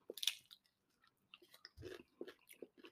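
Crunchy chewing of a snack that tastes like potato chips: a few sharp, crisp bites followed by softer, irregular chewing, quiet and with no talk.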